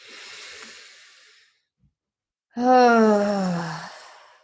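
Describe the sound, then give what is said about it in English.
Two deep breaths during an emotional release exercise: first a soft, airy breath, then after a pause a louder, voiced sigh that slides gradually down in pitch and fades out. “Whatever sound comes out is fine too. Take a nice deep breath in. Another deep breath in.”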